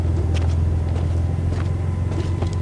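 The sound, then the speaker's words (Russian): A passenger car drives up to a gate, its low engine rumble and road noise holding steady and fairly loud throughout, with no talk. “К воротам подъезжает легковая машина.”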